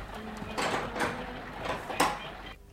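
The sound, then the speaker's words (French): A window being closed: a few soft sliding and knocking sounds, ending in a sharper thud near the end. “Mais veuillez fermer cette fenêtre, ce que j'ai à vous dire est sérieux et on ne s'entend plus ici.”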